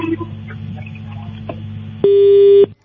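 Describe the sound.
A telephone disconnect tone marks the end of a call: a single loud, flat-pitched beep lasting about half a second, following a stretch of faint low line noise.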